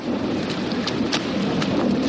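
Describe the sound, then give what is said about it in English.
Heavy rain pours down in a fierce nighttime thunderstorm at the Lake Placid Ironman, a steady loud hiss with a few sharp crackling bursts of thunder rising out of the downpour. “Just before midnight, Lake Placid's Ironman is hit by a fierce storm. Except for flashes of lightning, it's pitch dark.”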